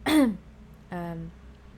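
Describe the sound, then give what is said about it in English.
A person clears their throat: a short, rough rasp, then after a pause a lower, voiced grunt. Both are fairly loud over a quiet background. “I need to clear my throat a little bit more, I guess.”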